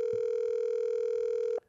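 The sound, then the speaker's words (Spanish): A telephone dial tone plays while a call is being placed to a lawyer: one steady, unbroken mid-pitched hum that holds evenly, then cuts off abruptly near the end. “Déjame llamarlo. Ojalá no haya entrado alguna audiencia ya, una cosa de esa. Estoy llamando a”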